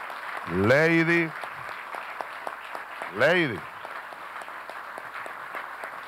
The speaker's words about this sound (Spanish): Vamos a darles un aplauso.